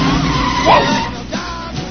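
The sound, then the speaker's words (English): A car brakes hard while parking and nearly runs someone over, with a brief, sharp tire squeal over a continuous loud engine and road rumble. “George parks a Mercedes coupe, then directs Cameron into a space and almost gets run over.”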